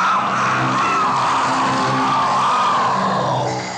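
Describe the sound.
A monster roar from the Monster Hunter video games, from the Kizu, a creature with an electric character: one drawn-out, loud, raspy screech with a harsh, bright, grinding texture that eases slightly at the end, with no talk.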